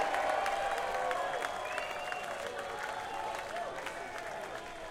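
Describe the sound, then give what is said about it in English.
An audience cheering and applauding at a weekend event, a dense, sustained wash of clapping that holds steady throughout and eases off slightly toward the end. “I don't think that you've nearly yet cheered enough for Ronnie McCurry this weekend.”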